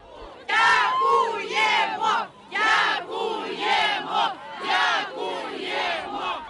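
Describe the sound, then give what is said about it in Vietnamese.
Kherson residents cheer and chant thanks as a crowd on 12 November, after Russian troops withdrew, surrounding Ukrainian soldiers in the city; loud, rhythmic massed shouting rises and falls in repeated bursts throughout. “Âm thanh mà quý vị đang nghe là những lời hò reo của cư dân Kherson vào ngày 12 tháng 11 sau khi quân Nga rút đi.”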